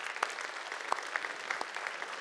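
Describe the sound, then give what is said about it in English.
Congregation clapping after a story video at a church gathering, a fairly quiet, even patter of many hands with a few sharper claps standing out above it. “And yeah, we can clap for that.”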